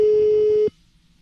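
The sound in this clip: A telephone ringing tone on a call to a radio listener: a single loud, steady electronic tone holds for under a second, then cuts off abruptly into near silence.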